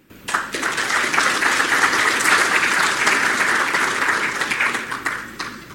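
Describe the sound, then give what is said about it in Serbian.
Applause after a fruit-growing lecture at an international agricultural fair: dense, steady clapping from many people that rises quickly and tapers slightly at the end. “zaslužen aplauz za majestralno predavanje koje je od prisutnih dobio Zoran Keserović”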